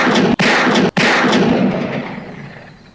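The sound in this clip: Gunfire from a gun in a desert: loud, dense blasts run together with two brief breaks, then fade out in a long tail.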